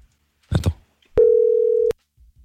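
A single steady ringback tone sounds on a telephone line while calling someone back, held for under a second after a short burst of rustling noise, with near silence around it.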